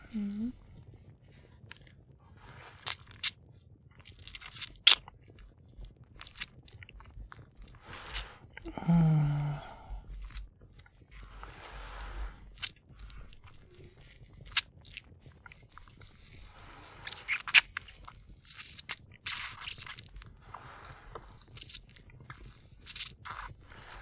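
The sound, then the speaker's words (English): Nibbling and biting into food: crisp little crunches and soft chewing noises are scattered unevenly throughout, with a few louder bites standing out and a voice speaking in places. “how shall we begin? With a little nibble.”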